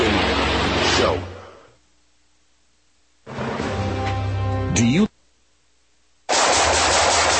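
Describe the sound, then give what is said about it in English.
Automatic gunfire comes in three loud, sustained rapid-fire bursts, separated by quiet gaps. “Nice shooting.”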